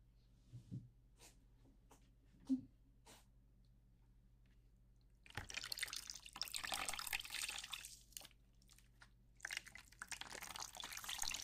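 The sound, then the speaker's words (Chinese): Water rinsing hair: faint drips and near quiet at first, then a steady, broad rush of flowing water that lasts through the second half. “现在帮您冲洗一下哦。”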